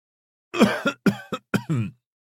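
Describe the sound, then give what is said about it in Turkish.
A seer coughs before speaking in a palace hall: a voice performs several short, rough, voiced bursts in quick succession, fairly loud, with no other sound around them. “Sonunda tebaili büyük kâin Teiresias öksürerek konuşmaya başladı.”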